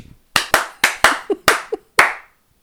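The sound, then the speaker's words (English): Hand clapping from a studio audience welcoming a guest: about eight sharp, separate claps at an uneven pace, then quiet. “Please, studio audience, put your hands together and welcome Kristen Stevens.”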